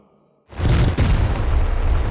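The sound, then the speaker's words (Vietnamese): An explosion bursts in after a brief quiet lead-in: a sudden loud blast followed by a dense, deep rumbling roar that holds strong to the end. “Một tiếng nổ vang lên”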